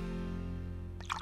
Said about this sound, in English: You hear that? That's the sound of healthy, safe water from the tap.